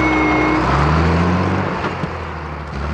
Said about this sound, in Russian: Мимо едут грузовики модели ГАЗ. Она переходит дорогу прямо перед грузовиком.